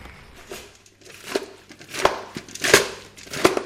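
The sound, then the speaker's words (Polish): Knife chopping cooked vegetables mixed with pumpkin seeds and apples, heard as several irregular soft thuds and crisp cuts with faint crinkly, wet squelching between them and no talk. “Siekam gotowane warzywa z dodatkiem pestek dyni i jabłek dla świnek naszych.”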